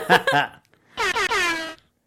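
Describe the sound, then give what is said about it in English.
Air horn sound effect: a couple of quick blaring bursts, then a longer, louder blast with a wavering tone that cuts off abruptly. “I appreciate the air horns because I love them.”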